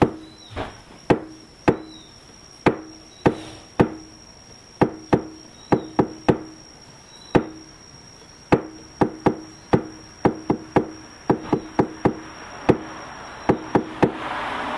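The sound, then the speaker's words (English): Many sharp, wooden-sounding taps beat out the rhythm of a devotional mantra. The crisp knock-like hits come in uneven clusters separated by short pauses, and they stay fairly loud and even throughout with no voices. “So I just tapped out the Panchatattva mantra.”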